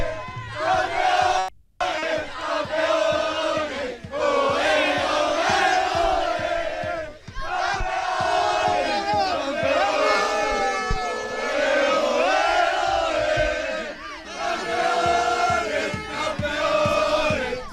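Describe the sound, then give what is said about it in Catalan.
Aldaya's football team shouts and chants together in the locker room after clinching promotion with a 6-0 win, a loud, sustained mass of voices that breaks off briefly near the start and then carries on. “Final del partit en Aldaya, victòria de l'Aldaya 6-0, i el conjunt de Mil López que aconseguís l'ascens. Esto es lo que grita el vestidor.”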